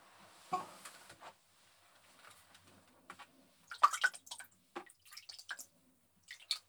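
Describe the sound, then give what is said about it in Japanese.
Warm water for a foot bath, heard as scattered soft drips, trickles and small splashes. They come in quick clusters with quiet pauses between, faint overall. “あったかいお湯の用意したから、まずは足湯をどうぞ。”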